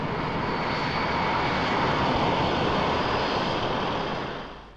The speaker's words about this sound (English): not just by Soviet trawlers, but by ferret aircraft such as this Bear.